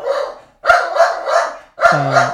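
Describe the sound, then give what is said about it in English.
A dog barks in a quick series of sharp, loud barks, with several bursts in close succession and brief pauses between them, heard on its own without talk. “sorry about that. That's a dog.”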